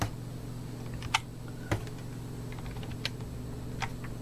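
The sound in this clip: A computer mouse clicks a few times at irregular intervals, each a short, sharp tick over a quiet, low hum.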